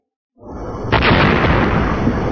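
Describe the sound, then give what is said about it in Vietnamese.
A thunderous explosion as a huge water column crashes into the sea: a rumbling roar swells up, then a sharper burst hits and a loud, sustained booming wash carries on to the end. “Luồng nước khổng lồ từ trên lao thẳng xuống mặt biển, phát ra tiếng nổ mạnh rung trời”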